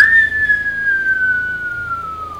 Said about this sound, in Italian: Il suono di un fischio. Uno lungo. Uno corto.